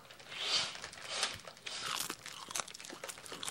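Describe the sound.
Crunching of a very thin, crispy snack, a faint, continuous run of many brittle crackles and crunches.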